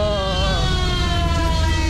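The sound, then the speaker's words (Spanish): An ambulance siren sounds as a loud, sustained tone rich in harmonics, holding a nearly steady pitch with a slight waver throughout over a low rumbling background. “¿Eso era la ambulancia? La ambulancia, por favor.”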